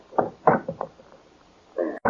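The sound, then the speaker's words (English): A safe is opened by ear, its combination dial turned: a few muted knocking clicks, a pause, then a heavier, longer clunk and a final sharp knock. “I'll have to get the combination and open the safe by ear, just to keep in practice.”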